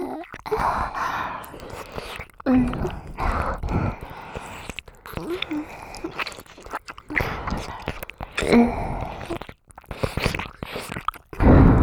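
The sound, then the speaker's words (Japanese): Wet ASMR mouth sounds of a woman pretending to eat a younger brother's ear in an older-sister roleplay, with close biting, chewing and smacking noises and breathy whispers that run continuously. “弟のかわいいお耳食べるの後半しちゃう。”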